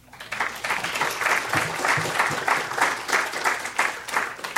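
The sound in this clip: Audience applause welcoming a speaker to the stage: dense, steady clapping from many hands that holds at an even level throughout, with no voices standing out.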